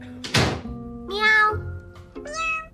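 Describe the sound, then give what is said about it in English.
A talking cat app on a tablet computer makes two clear meows, the second shorter. A short dull thud comes before them. “At home, Rebecca shows Tom a talking cat app on her tablet computer.”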